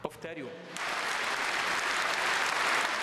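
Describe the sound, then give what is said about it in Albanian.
Applause after a speech begins with a few claps after a brief voice and quickly swells into steady, dense clapping that stays loud and even to the end. “Fjalimi u prit me duartrokitje të stërvitshme.”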